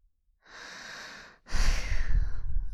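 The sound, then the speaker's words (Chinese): A person breathes close by, with a soft airy breath and then a louder, rougher, noisier breath. The sounds stand alone with no talking. “别翻身对着这边啊，你这样呼吸弄得我好难受啊。”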